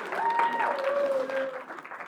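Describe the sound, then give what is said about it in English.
Audience applause breaks out for a participant at a talk: a brief, steady wash of clapping lasting about two seconds that thins slightly at the end. “Everybody give Cam a big round of applause.”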